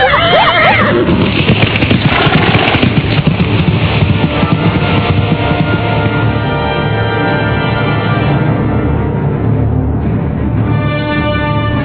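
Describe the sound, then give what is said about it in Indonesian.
A horse neighs loudly as its rider spurs it into the dark night along a forest edge. A shrill whinny at the start carries into a long, dense, sustained stretch of sound. “Endang Puspitasari menggebrak kudanya menembus gelapnya malam”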